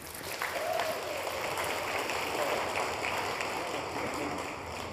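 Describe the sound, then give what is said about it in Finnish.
An audience at a Christian media mission event applauds its house band: steady, crackling clapping that rises slightly and holds as a soft, even wash for several seconds. “ihan mahtava house bändi. Vielä kerran aplodit heille.”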